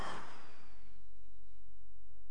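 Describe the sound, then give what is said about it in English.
A single breathy exhale, voiced as an imitation of God breathing life into Adam, bursts out at the start and quickly fades into quiet hiss. “he breathed life into him.”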